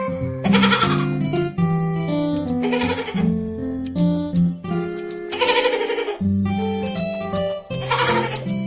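A baby goat bleats in several wavering cries that recur at regular intervals amid tuneful music.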